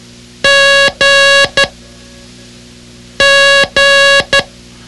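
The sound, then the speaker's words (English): Morse code tones for the letter G: two long beeps and a short one, sent twice. The beeps are steady, high-pitched and loud, with no other sound around them. “G is represented by the phrase, God loves me. God loves me. It sounds like this.”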